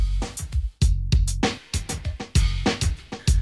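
An instrumental hip-hop track plays with punchy drum hits and booming bass notes in a steady, driving rhythm. Many loud beats are separated by short gaps.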